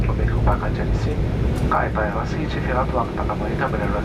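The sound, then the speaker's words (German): The steady low drone of an aircraft on its afternoon approach for landing at Constantine's Mohamed Boudiaf airport, a continuous engine rumble that runs under a voice speaking throughout. “Anflug auf Konstantin. Es ist Nachmittag.”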